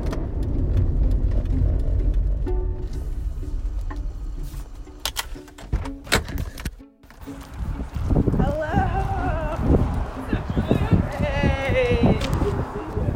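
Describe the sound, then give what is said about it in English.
A car drives along a road around Mount Rainier, with a steady low engine and road rumble throughout, scattered knocks and clicks, a brief dip midway, and a voice heard in the later part. “it is like the most gorgeous day ever to be driving around Mount Rainier”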